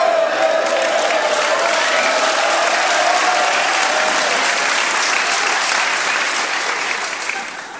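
Loud, dense audience applause mixed with some cheering holds steady, then eases off slightly near the end.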